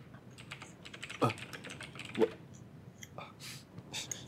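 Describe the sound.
A very sharp small knife carving clay gives quick, irregular light clicks and ticks, with two sharper snaps standing out among the soft scratchy taps.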